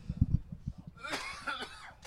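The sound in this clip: A person coughs from coffee grounds caught in the throat, with a couple of sharp, low coughs followed by a rougher, raspy throat-clearing stretch, all moderately loud.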